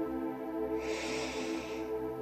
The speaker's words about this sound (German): und wenn du jetzt soweit bist, dann atme mit mir ganz tief ein